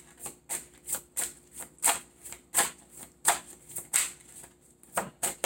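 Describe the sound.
Tarot cards shuffled during a tarot reading: many crisp, papery slaps and riffles come in a quick, uneven series, fairly faint, with no talk.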